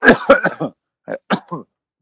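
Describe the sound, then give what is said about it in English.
Harsh coughing and choking from a person close to a microphone: a rapid burst of loud coughs, a short pause, then a few more coughs, heard alone. “I apologize, listeners. I tried to pull my mic away before I started choking there.”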